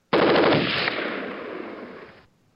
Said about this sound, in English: All right, fire the guns.